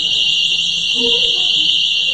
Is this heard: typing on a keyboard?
no